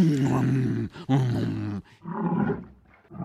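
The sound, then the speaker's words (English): A bear in a pen, coaxed with bread, gives a few deep, rough groaning roars with rich harmonics; the first two calls are long and loud, and shorter, softer ones follow. “we spent an afternoon with this bear in a pen, coaxing it to say different sounds. The way they got it to make sound was to show it bread.”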